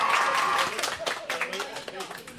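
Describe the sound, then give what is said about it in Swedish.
Scattered applause from a small quiz audience, a few uneven rounds of clapping mixed with talking voices and chatter that thins out toward the end. “En applåd för Dan där.”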